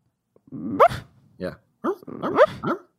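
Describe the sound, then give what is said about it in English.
A person imitates a sleeping dog's bark with the mouth closed, making a short run of muffled, synth-like yips and whimpers with clipped, rising tones. “The barking she makes in her sleep is such a, it's like a Super Nintendo era dog sound where it kind of sounds like it's being made on a synth.”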